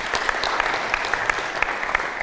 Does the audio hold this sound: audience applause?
yes